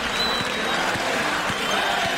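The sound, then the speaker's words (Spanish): A bullring crowd gives an ovation, thick, continuous applause from many hands that stays level and steady from start to finish. “Nos vamos a quedar, vamos a ver la reacción del público que ovaciona, ahora sí.”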